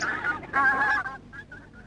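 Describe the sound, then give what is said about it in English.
Geese honking in a park: a few nasal, harmonic honks in quick succession, the loudest in the middle, then trailing off into several shorter, fainter calls. “But the ducks and geese ate all their food and chased them away.”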